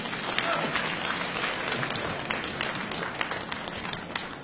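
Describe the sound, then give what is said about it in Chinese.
Audience applause fills a variety-show stage as contestants from a cultural centre are called on, a dense, even wash of many hands clapping, loud and sustained throughout. “掌声请出江苏盐城文化馆的夏文兰、倪明。”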